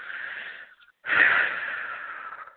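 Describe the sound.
A deep breath, heard as a breathy, slightly wheezy draw of air that stops briefly and then gives way to a longer, fuller rush of breath that slowly fades. No talk over it.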